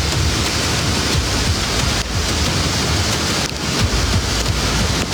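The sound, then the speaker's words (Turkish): Heavy downpour of rain during a flood in a large city, heard as a dense, steady, loud hiss of water with no voices over the whole stretch. “Mega kenti yağmur vurdu, sağanak sel getirdi”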